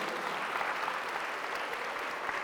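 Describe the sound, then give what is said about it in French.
Steady applause from a church audience during an afternoon service: a dense, even wash of many hands clapping at a moderate level for the whole stretch, with no single voice standing out. “Applaudissez ça, c'est pour toi après-midi.”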